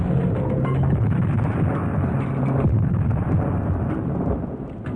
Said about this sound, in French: Il nous a explosé dessus!